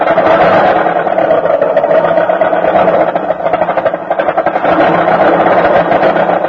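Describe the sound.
A car engine bucks and sputters through a cold winter morning start. The rough, dense rumble runs continuously, staying loud with only a brief dip midway.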